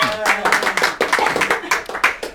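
An audience claps in brisk, uneven applause, with many sharp hand claps overlapping in quick succession through the short stretch before it ends.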